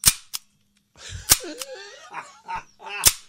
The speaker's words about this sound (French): Es-tu en train de tirer du gun? Ouais, je suis en train de shooter des agrafes. Ouais. C'est la grande taqueuse.